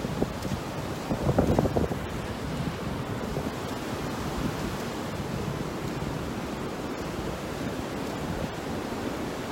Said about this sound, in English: I hope you can hear me over all this wind.